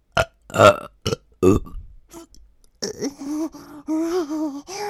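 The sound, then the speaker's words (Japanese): A run of short, loud burps in quick succession, followed by longer, drawn-out voiced belches with a warbling tone. “ゲップ出る”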